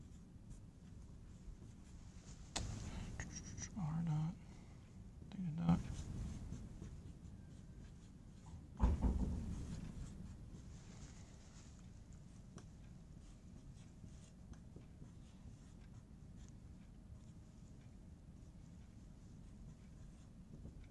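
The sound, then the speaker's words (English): Faint scratching strokes of someone writing out an acceleration equation, with a few brief bursts of writing early on and quiet stretches in between. “I'll write out the full thing.”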